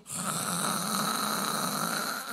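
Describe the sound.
A person snoring loudly while sleeping after lunch. One long, rasping, steady snore holds at an even loudness from start to end, with no voices.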